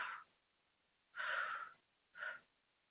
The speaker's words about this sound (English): Okay, just take 3 deep breaths for me.